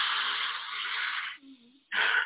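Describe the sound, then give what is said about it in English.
A forceful inhale through the nose during a nostril-clearing breathing exercise makes a long, loud airy hiss. A short, low hummed voice follows, then another abrupt rush of nasal breath at the end. “You could do this, the nasal breathing, similar to the last breath we took, where we did that forceful inhale through the nose.”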